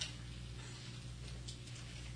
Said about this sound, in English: And in his grandma's house, there was a large grandfather clock.